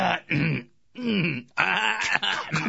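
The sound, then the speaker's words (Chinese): A man clearing his throat during a comic dialogue performance: a few raspy, gravelly voiced bursts with short gaps between them, fairly loud and without other talk. “这诸葛亮啊，清了清喉咙，”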